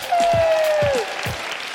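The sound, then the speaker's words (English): Applause and cheering from the audience at a live evening show, a dense, even wash of clapping that holds steady throughout, with a long whistle-like tone that dips at the end. “I just want to say a massive thank you to Fabulous Magazine and to Vitabiotics. Give them a cheer.”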